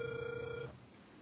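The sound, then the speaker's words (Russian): Telephone ringback tone while a call is being dialed: one steady mid-pitched tone lasts about two-thirds of a second, then cuts off, leaving only faint hiss. “продолжаю дозвон, не отключайтесь”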